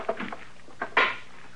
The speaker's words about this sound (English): Well, that stick of wood, of course. You're gonna wreck it banging it on the stove that way.